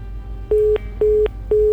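A telephone busy tone sounds after a call is cut off: three short, steady, mid-pitched beeps, evenly spaced and equally loud, with no voices.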